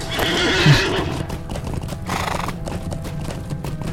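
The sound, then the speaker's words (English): A horse gives a high whinny in a Middle-earth video game, and then its hooves clop in a steady, even rhythm as it comes when called. “I'm just gonna call my horse here”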